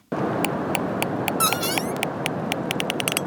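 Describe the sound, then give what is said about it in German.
Pilot whales call underwater: many sharp, evenly spaced clicks sound over a dense hiss of background noise. A cluster of high, wavering whistles and squeaks bursts out near the middle. “Auch wenn ihr Gesang für uns Menschen etwas befremdlich klingt, Grindwale sind soziale und kommunikative Wesen.”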